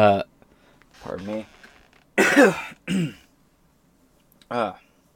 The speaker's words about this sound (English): Give me one second, I need to clear my throat.